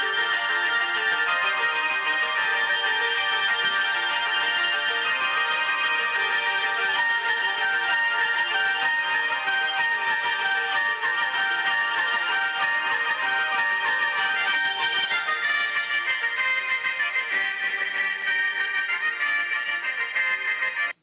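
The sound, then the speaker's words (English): Christmas music plays alone at a steady, even loudness for the whole stretch, a dense layered sound with a muffled, band-limited tone and no voices. “Some Christmas music there.”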